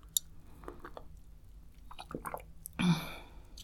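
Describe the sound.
Oat milk being drunk from a glass: soft sips and quiet mouth sounds, with a louder gulp or slurp near the end and no talk.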